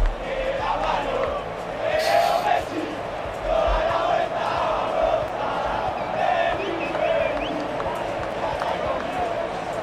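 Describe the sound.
Football players chant and sing together in celebration of a World Cup win, a loud, steady mass of voices that continues without a break through the whole stretch.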